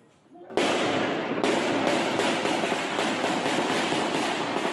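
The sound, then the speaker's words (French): Bursts of gunfire in a street at night during violence between armed groups in a neighbourhood. A loud, dense crackling starts abruptly and carries on without a break, with sharp pulses recurring through the sustained noise. “Des rafales de tirs en pleine rue et plusieurs hommes qui fuient.”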